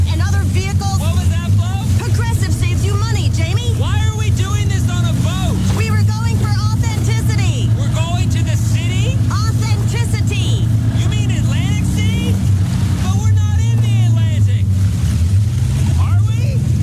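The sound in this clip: A real boat's engine drones on the water, a steady low hum that holds at an even level throughout while voices talk continuously over it.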